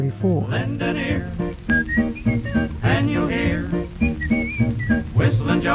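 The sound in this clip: A whistled melody from a 1934 recording rides high over a full instrumental accompaniment, its bright, pure tones gliding in short phrases across a steady, busy musical backing.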